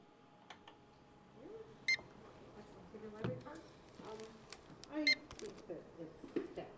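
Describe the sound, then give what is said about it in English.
A library circulation desk barcode scanner beeps as books are checked out: two short, bright electronic beeps stand out above steady talk and background chatter. “That's the sound of a scanner at the Sitka Public Library's circulation desk. Every day, the scanners beep hundreds of times as librarians record each book that's checked out.”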